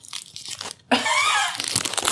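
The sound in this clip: Dried, crispy potting soil held close to the microphone gives loud, dry crackling and crunching, with a dense burst in the middle and lighter crackles on either side.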